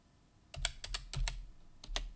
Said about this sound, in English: Sorry, I cannot type. I type terrible.